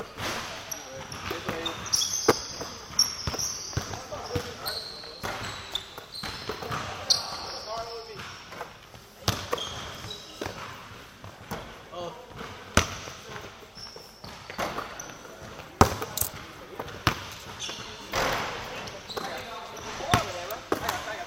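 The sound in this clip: Basketballs bounce during layup drills at a coached practice: many sharp, irregular thuds overlap across the whole stretch, with occasional voices calling out between them.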